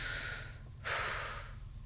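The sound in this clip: Slow, controlled breathing from someone calming down: one soft, hissing breath swells into a longer drawn-out exhale over a steady low hum.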